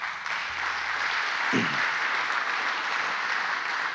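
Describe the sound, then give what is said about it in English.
An audience applauds a man coming up to speak at a lunch gathering, with dense, steady clapping that holds at an even level throughout. “Give him a hand.”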